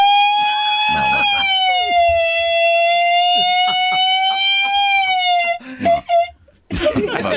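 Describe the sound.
A human voice imitates an ambulance siren with a loud, high, sustained wailing tone that sags slightly and then holds steady for about five seconds. It breaks off into choppy vocal sounds, and a burst of noisy voices follows.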